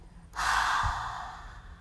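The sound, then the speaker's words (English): A single deep breath during a guided breathing exercise, drawn in through the nose and let out through the mouth: one long, soft, airy rush that starts abruptly, then slowly fades. “gently take a deep breath in through the nose. Open your mouth and release.”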